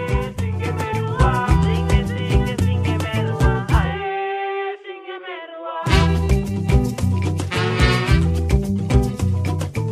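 A Garifuna song from a women's music project plays with a steady, driving beat and bright plucked and strummed tones. Midway the percussion drops out for about two seconds, leaving sustained ringing notes, before the full rhythmic groove returns.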